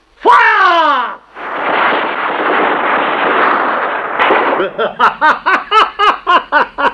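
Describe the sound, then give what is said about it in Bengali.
A burst of gunfire during a military ambush, a dense, roaring rattle lasting about three seconds. A high vocal cry comes before it, and a string of short, evenly spaced pulses follows. “শেষ হয়ে গেছে, সুহাসের দেহ গুলিতে গুলিতে।”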